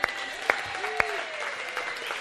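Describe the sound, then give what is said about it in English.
Audience applause at a committee meeting, with steady, dense clapping throughout and a few sharper individual claps standing out. “Round of applause for Ron, ladies and gentlemen.”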